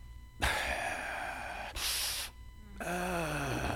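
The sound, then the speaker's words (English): A voice imitates the labored, machine-like breathing of a boy of about ten who cannot breathe right. It makes a few harsh, rasping gasps in and out, with the last breath turning into a voiced, groaning wheeze. “And this is the way he breathed. I think I've done this before, but it makes a point. He'd breathe like this.”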